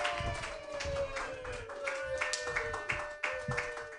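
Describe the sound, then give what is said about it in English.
Applause rises from a stand-up comedy audience as a comedian is welcomed to the stage, with scattered claps and taps ringing out at an even level. “Put your hands together for your first comedian, everybody, Lauren Kraut.”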